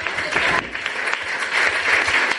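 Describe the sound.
An audience gives a half-hearted round of applause, a continuous patter of many hands that stays fairly even and swells slightly in the second half.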